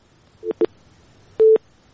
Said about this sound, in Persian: بله خب تماس ما قطع شده.